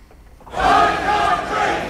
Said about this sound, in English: This is the sound of protests held in Southampton yesterday.